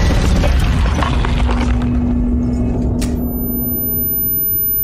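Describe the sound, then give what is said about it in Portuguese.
A bomb explosion sound effect plays as a loud, broad rumble that slowly thins out, then a faint, thin, high-pitched ringing tone lingers on alone. “Adoro esse efeito depois de bomba, cara.”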